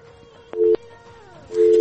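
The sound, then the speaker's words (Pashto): A telephone busy signal sounds on a dropped call: a steady tone runs throughout, and two louder tone bursts rise out of it, one brief and one continuing to the end. “نه نه، اړیکې والې داسې مصروفې دي، مشکلات دي پکې لکه چې.”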